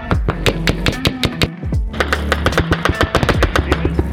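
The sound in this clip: Rapid automatic gunfire pours onto a military position: many loud, sharp shots in fast bursts, with a brief lull near the middle before the firing resumes.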